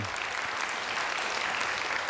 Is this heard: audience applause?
yes